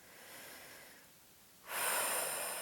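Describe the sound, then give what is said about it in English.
One big, deep cleansing breath: a soft, drawn-out inhale fades, then a louder, airy exhale starts abruptly and trails off. “We're going to start with one big cleansing breath.”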